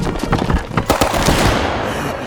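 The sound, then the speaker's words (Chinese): Gunfire sound effect of pirates shooting in an audio drama: many sharp, crackling shots fired in a dense, irregular burst, loud and continuous across the whole clip. “不好，海盗要开枪了！隐蔽！”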